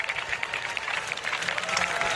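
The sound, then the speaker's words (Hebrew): An audience claps at a night-time outdoor concert overlooking the Sea of Galilee, waiting for the performer, who is tuning a guitar on stage. The applause is moderately loud, busy and continuous, with individual claps flickering through. “והקהל נערך בציפייה למה שהולך לבוא. הרבה מחיאות כפיים.”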